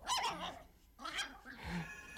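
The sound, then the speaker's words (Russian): A dog barks while running across a dining table covered with oilcloth, giving a few faint, yappy barks and yips in short bursts. “Собака бежала по обеденному столу, покрытому клеенкой, и лаяла.”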